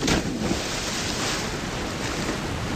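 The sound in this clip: Splashing water at a deep summer swimming spot where people jump in, a continuous rushing, churning wash of noise that stays fairly even.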